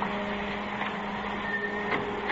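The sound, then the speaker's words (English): A dryer running with a steady, even mechanical whir and low hum that holds at a constant level throughout, without pauses or changes. “Kill that dryer, will you?”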